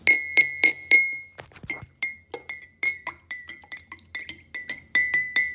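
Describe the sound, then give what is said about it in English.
A spoon stirring a cup of tea clinks against the cup many times in a quick, steady rhythm, each strike a bright, ringing chink, with no voices. “Stirring a cup of tea.”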